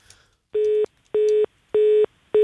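A telephone line signals a dropped call during a radio call-in with a steady, mid-pitched beep. The beep repeats four times at an even rhythm, and the last one is cut off.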